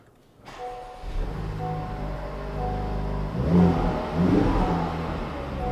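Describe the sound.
Indoors, a car engine starts with a sudden burst, settles into a low, steady idle, then is revved twice in quick, throaty surges before easing back. No one speaks.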